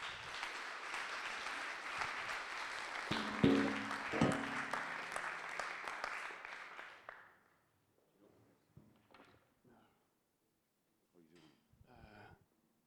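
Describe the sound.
Church audience applause welcomes a speaker during a service series on Amazing Grace. A full wash of clapping lasts about seven seconds, then fades out into quiet, sparse talk.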